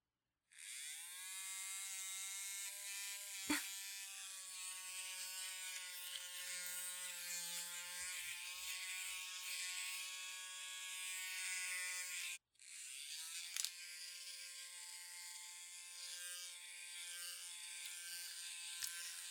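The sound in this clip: An electric shaver buzzes as it is switched on to shave body hair. The steady, loud hum runs almost the whole clip, with a click early on, then cuts out briefly before starting up again and continuing to the end.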